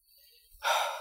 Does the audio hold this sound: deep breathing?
yes